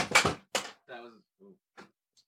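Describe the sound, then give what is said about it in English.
An unlit candle knocked over on a desk gives a few sharp clattering knocks with short ringing tones between them. The sounds are separate, brief and fairly quiet. “That was me. In an effort to clean the desk off and clear space for the keyboard, I knocked over the candle that wasn't lit.”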